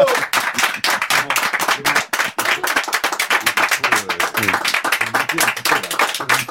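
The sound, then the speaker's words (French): Dense, loud applause and clapping from a group of people, continuous rapid hand claps with no break throughout. “ils sont tous derrière moi venus là pour t'applaudir”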